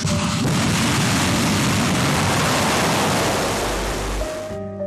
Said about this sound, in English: North Korea released this footage of their missile launch on August 29th.